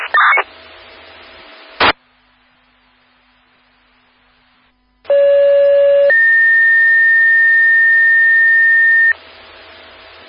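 Fire dispatch alert tones toning out a still alarm for a two-car crash at an intersection: a short burst of beeps and a sharp click, a pause with faint radio hiss, then a loud steady tone shifting into a second sustained tone lasting several seconds.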